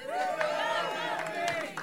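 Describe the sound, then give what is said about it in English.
An audience calls out together in a cinema auditorium, theater number 10 of an Alamo Drafthouse in North Austin, Texas. The chorus of many voices is slightly ragged and runs steadily for about two seconds. “I knew that one might be a little sloppy in the terms of the whole audience being in unison”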